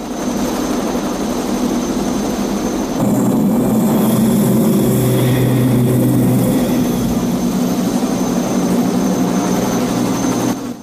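A helicopter gunship flies low over jungle and descends toward a river. Its rotor and engine drone is loud and steady and grows somewhat louder about three seconds in, with no voices.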